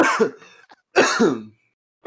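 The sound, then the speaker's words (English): A person coughs and hacks while choking on seeds stuck in the throat. Two harsh, raspy bursts are split by a brief pause. “Oh, he's choking. He's choking, boys. Oh, my God. I got some fire seeds in my throat.”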